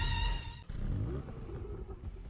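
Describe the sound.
A BMW car engine starts and settles into a steady, broad rumble after a brief tonal sound at the start; no one talks.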